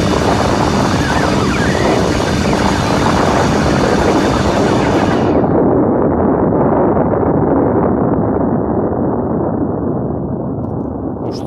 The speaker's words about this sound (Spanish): Se ha destruido bien, sí, joder, se ha destruido. La bomba esa ha caído bien, sí, ¿eh?